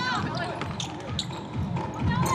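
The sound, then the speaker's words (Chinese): A basketball bounces on the court floor during a game involving the University of Sydney, several dull thuds under steady commentary voices and crowd noise. “球在地板上，双方抢来抢去，结果是在雪梨大学手上。”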